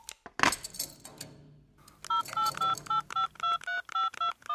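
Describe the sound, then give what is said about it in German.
Telephone keypad dialing tones as a handcuffed man calls his lawyer: a brief rattling clatter, then a quick, evenly paced run of many short, bright electronic beeps. “Mit Handschellen seinen Rechtsanwalt anrufen.”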